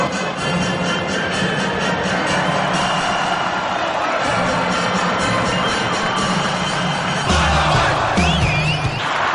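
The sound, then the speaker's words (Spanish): A loud football crowd of Paraguayan fans roars after a Paraguay goal, cheering, shouting and whooping in a dense, sustained wall of noise that swells slightly toward the end. “Y Paraguay gana, escuche. Salta el público paraguayo con aliado brasileño en la tribuna. Paraguay gana 1-0.”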